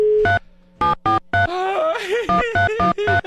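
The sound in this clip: A telephone being dialed, with several short, clean keypad tones beeping in quick succession, a brief stretch of voice in the middle, then more tones.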